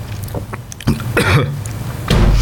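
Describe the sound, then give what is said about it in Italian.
Short, harsh coughs and throat clearing after hiccups and something going down the wrong way, coming in a few separate bursts. “scusate, prima singhiozzo, poi mi va di traverso”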